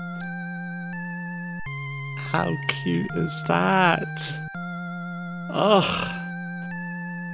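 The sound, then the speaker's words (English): Chiptune 8-bit world map music from a demake of Final Fantasy VII plays as steady, buzzy square-wave tones in a simple melody. A person talks and groans over the middle section. “They've even got the little 8-bit world map music.”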